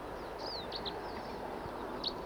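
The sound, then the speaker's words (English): Wild bird singing and calling: a few short, high chirps and one quick falling whistle, fairly faint over a steady background hiss. “Here's another bird who's also singing and calling. Wild bird song.”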